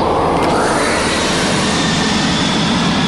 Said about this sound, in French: D'après le bruit d'accélération que font les moteurs, on peut affirmer que c'est un avion qui décolle.